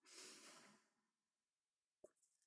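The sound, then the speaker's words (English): A person takes a long, deep breath, a breathy rush that swells and then fades over about a second. A quiet pause and a brief sharp click follow. “So I'm going to take a nice deep breath for that. That's a lot. Take a breath.”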